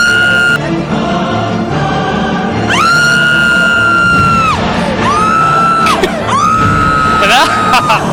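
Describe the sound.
Loud yelling from one person: several long, high, strained held yells that stay level in pitch before cutting off, over a busy, noisy background.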